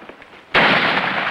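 Gunfire in a war film scene on a steep rock face, a quiet start followed by a sudden loud burst of harsh noise that holds steadily to the end.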